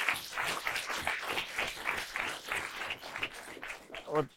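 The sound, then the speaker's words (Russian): Clapping from a small group at a talk on money and earnings: an uneven patter of hand claps, fairly faint, with a voice briefly heard at the end. “Окей, хорошо, спасибо, похлопаем.”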